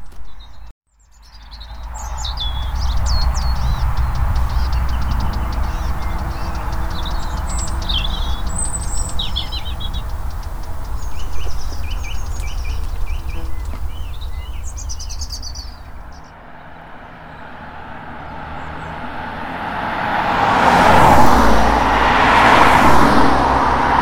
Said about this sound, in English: An odd mixture of a song thrush, robins, and the noisy traffic on the A35.